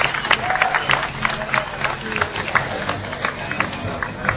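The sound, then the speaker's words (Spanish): Audience applause at an award ceremony as a second-prize winner is called up: brisk, crackling hand claps in a steady stream of moderate loudness, with a few sharper claps standing out. “Fuerte aplauso,”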